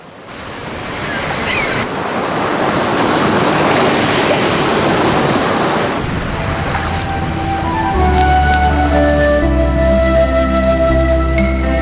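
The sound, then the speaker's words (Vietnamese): Sea waves lap against a rock wall in a continuous washing roar mixed with wind. Sustained musical tones and a low bass join in the second half. “tựa lưng vào vách đá, nghe tiếng sóng vỗ rì rào mà ngủ thiếp đi.”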